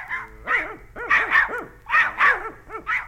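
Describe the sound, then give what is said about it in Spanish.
Dogs bark in a rapid, fairly loud series of short, bouncy barks, about one every quarter second over a few seconds, with no other sounds heard. “Los perros, por decir algo también, ladraron con un guaguá bastante necio.”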